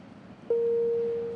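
A single synthesized note, MIDI note 70, played from a two-word music coding program: one steady, clear pure tone that starts abruptly and holds level, fading only slightly at the end over a faint background hum.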